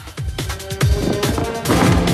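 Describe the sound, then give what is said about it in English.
A jet ski crashes into two men: a rapid, loud run of heavy thuds and smashing impacts, the clatter growing denser and louder toward the end. “The jet ski crashes into two other baddies.”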